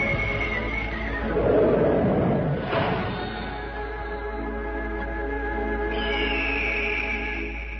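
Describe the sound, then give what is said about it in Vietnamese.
A horse whinnies on the open steppe, a loud, shrill neigh swelling near the middle over a steady sustained background, with no distinct hoofbeats standing out. “Hai người nắm tay nhau ra thảo nguyên, phóng ngựa, thả điêu.”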